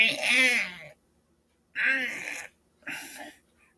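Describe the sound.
A voice imitates deep groaning: three drawn-out, breathy moans separated by silences, the first the longest and the last the shortest.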